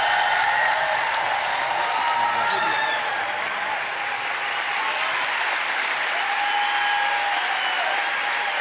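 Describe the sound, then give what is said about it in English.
An audience at a Christian gathering applauds to welcome a speaker to the stage: sustained, dense clapping from a large crowd, holding a steady, loud level throughout. “So y'all, would you put your hands together with me now and welcome Brother Mario Murillo.”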